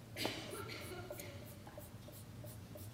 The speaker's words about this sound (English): I'm going to draw you a ladder. So you draw a ladder. Check this out, Ron. I'm going to draw this ladder.